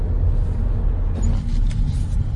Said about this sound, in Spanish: el coche sale bien en primera, segunda, incluso ahora aquí en tercera si le pisas